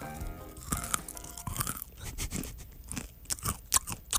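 Crunchy snack mix with dark chocolate being chewed, giving many crisp, irregular crunches at a moderate level with no talk.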